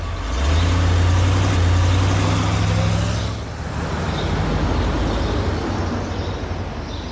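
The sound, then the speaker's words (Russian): A car engine rumbles steadily as the car pulls away, the low drone dipping briefly partway through before a broader road noise carries on to the end. “садится в машину и уезжает”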